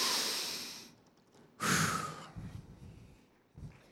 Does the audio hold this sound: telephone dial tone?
no